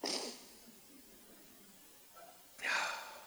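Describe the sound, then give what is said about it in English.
A preacher's sneeze in the middle of a sermon: a sharp, breathy burst near the end. It follows a quieter stretch and an earlier breathy gust at the very start. “I've been fighting that sneeze off for 15 minutes. I almost won. This world is broken, sneezes included.”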